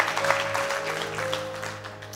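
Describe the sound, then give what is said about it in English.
A church audience applauds to welcome its church family: a dense, even wash of clapping from many hands that holds steady, then eases slightly toward the end. “Come on, just put your hands together and welcome your church family.”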